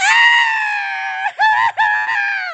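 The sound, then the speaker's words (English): A human voice imitating a cat screaming: a loud, high, strained wail that holds steady, then breaks twice in quick dips before resuming and carrying on to the end. “it is just real, like, screaming. Like, for a whole minute, just scream. Like, that cat had fucking lungs.”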